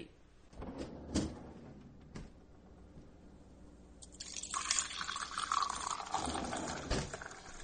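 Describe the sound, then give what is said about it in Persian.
A glass of water being fetched and poured: a few soft clunks and knocks come first, then a sustained rushing, splashing pour of liquid that fills the second half before tapering off. “من اگه اشکال نداره من برم یه لیوان آب بردارم.”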